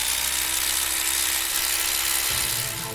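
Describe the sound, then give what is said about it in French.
An electric beater whips egg whites with a pinch of salt for a chocolate cake, giving a steady, loud, high-pitched motor whir over hissing noise. A lower hum shifts near the end. “Donc les blancs, tu te les montes avec un peu de sel, un batteur,”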